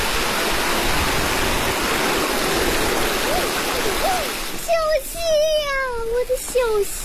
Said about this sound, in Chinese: 小溪， 一进入景区呢就是山泉水，水面非常的清澈